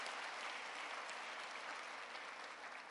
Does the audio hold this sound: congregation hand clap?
yes